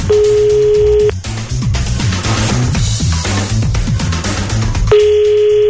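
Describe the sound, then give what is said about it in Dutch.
Telephone ringback tone from a call ringing out to a large supermarket: a steady, fairly low buzzing tone plays at the start and returns near the end, with other background sound between the two rings. “Mooie dag om de Albert Heijn te bellen.”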